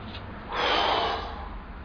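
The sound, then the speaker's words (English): A deep breath in, filling the lungs during a guided relaxation exercise: a soft, breathy rush swells over about half a second, then tapers off quietly. “and then breathe it in. Fill your lungs”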